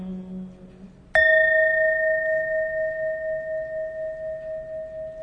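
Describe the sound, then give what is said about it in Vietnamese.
A bell struck once rings out in a clear, bright tone that sustains and slowly fades with a wavering shimmer, preceded by a faint low hum. “gửi lòng theo tiếng chuông,”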